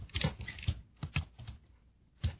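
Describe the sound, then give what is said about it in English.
Typing on a computer keyboard, a few quick clusters of clicky key taps in an irregular rhythm separated by short pauses. “Well, folks, it seems like that we're not paying close attention. We're both sitting here typing.”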